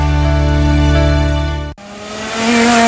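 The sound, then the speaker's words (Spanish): Go-kart engines roar at a karting track, one engine holding a loud, buzzing high rev before a sharp momentary cut, then building again to a strong, harsh whine. “Karting Las Américas, ADEGE, ruge más que nunca.”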